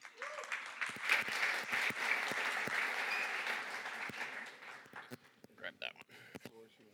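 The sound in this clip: Applause welcomes a speaker at a gathering: dense clapping that holds steady for about five seconds, then thins out and fades, followed by a few scattered claps and voices.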